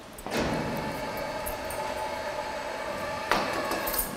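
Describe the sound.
A partition wall inside an animal cage slides shut: a sustained grinding, rumbling slide lasting a few seconds, then a sharper, louder burst of noise near the end.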